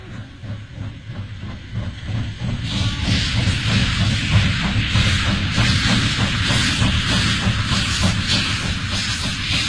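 Steam train chugging as a southbound passenger train departs, with rapid, steady chuffs and heavy rumble. A loud hiss of steam joins the beat after a few seconds and continues.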